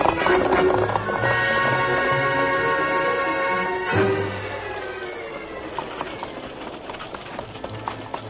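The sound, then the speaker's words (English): Hoofbeats of a giant white horse being ridden, a steady, quick clip-clop rhythm running under music that fades partway through. “the masked man was riding a giant white horse”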